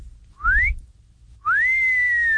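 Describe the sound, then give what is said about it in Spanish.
A human wolf whistle aimed at the ladies: a short upward-sweeping whistle, a brief pause, then a longer note that rises, holds and slowly sinks, loud and clear with no talking. “el chiflidito para sus ladies, para sus damas”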